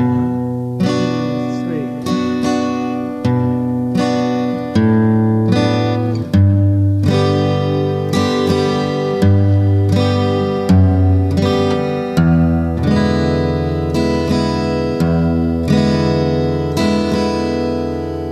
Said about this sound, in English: on the intro, we're going to start with B minor chord, bar, and then work our way down on a descending bass line like this.